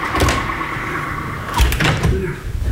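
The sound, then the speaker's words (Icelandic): A door is pulled shut during repair work. A low, muffled thud is followed shortly by a second knock, both set over a steady background hum. “nú verðum við að loka hurðinni”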